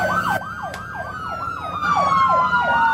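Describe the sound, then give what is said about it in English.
A police car's siren wails as it drives past, a rapid cycling yelp repeating many times over a steady high tone, loud and continuous, with faint road vehicle noise beneath. “So the police just drove right past the box.”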